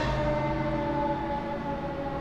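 An ambulance siren sound effect sounds on its own: a loud, sustained tonal wail holding steady bands of pitch for a couple of seconds, with no talk over it.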